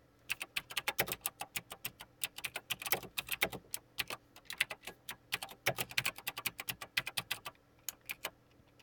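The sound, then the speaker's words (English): Typing on a computer keyboard: many crisp key clicks in fast, irregular bursts, quiet and alone, thinning out toward the end. “Let me just, type that.”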